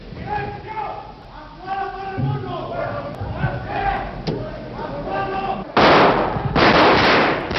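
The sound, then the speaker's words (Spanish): Gunfire from Civil Guards shooting at the ceiling of the Spanish Congress of Deputies in 1981: shouting voices come first, then two long, loud, dense bursts of shots. “un grupo de guardias civiles disparando al techo del Congreso de los Diputados el 23 de febrero de 1981”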